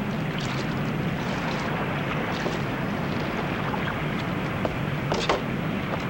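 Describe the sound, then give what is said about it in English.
A ship's boat slowly approaches a raft on the water. A steady wash of water and wind hisses continuously, with a few faint splashes and no voices. “As the ship's boat slowly nears the raft, Larson watches.”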